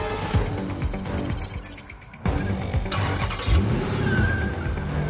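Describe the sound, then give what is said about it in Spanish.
A parked car on a city street starts up and drives off in an action film, its engine revving and surging loudly. A brief dip partway through gives way to a stronger burst of engine roar that stays steady to the end. “Un coche estacionado en la calle se pone en marcha.”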